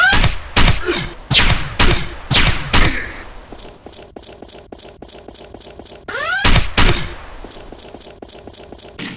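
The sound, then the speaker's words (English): Pistol gunfire in a video game: a quick run of sharp, punchy shots mixed with sweeping tonal effects, then a quieter stretch of rhythmic game sound before another burst of shots near the end. “Let's use this pistol on these guys.”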